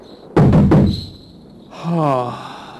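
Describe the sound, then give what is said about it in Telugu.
Knocking on a door: a quick cluster of a few sharp knocks, then a short pause and a single voice. “సరే, తలుపు కొడతాను.”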